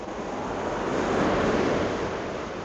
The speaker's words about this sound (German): Wasser. Jetzt kommt das Wasser wieder näher.